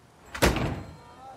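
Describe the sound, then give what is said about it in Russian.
A shop door slams shut with full force, giving one loud, sharp bang that quickly dies away into quiet. “пошагал из лавки прочь, со всей силы хлопнув дверью”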